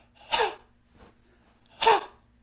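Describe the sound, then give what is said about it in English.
Two sharp, forceful exhales empty the lungs to fog a mirror quickly. Each is a short breathy burst, with a pause between them and no other sound. “okay, I want you to expel all the air out of your lung, making that sound, and try to fog the mirror up as quickly as possible. So it sounds something like this.”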